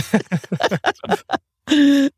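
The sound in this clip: A man groaning while catching his breath lets out one sustained low moan right after a burst of quick talk.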